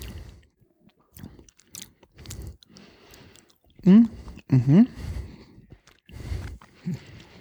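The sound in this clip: Chewing of a small, firm piece of cheese: a few moist, crunchy bursts of mastication, loudest in the middle, with people talking in between.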